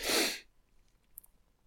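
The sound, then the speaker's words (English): A single short, breathy throat clear bursts out at the start, then fades into near silence with only faint ticks afterward. “Just give me a few moments just to clear my throat.”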